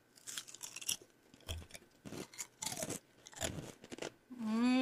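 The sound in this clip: Crunchy barbecue potato chips being eaten, heard as a quiet series of crisp crunches and chewing in irregular bursts, with brief pauses between bites.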